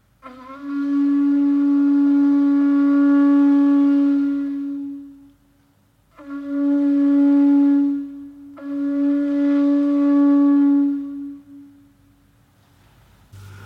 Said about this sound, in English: The last on this row is a Cornish foghorn. These horns, and also conches, were used by the fishermen until the Board of Trade put a stop to the practice around 1880.